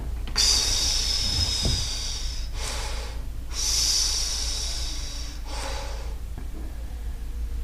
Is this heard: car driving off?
no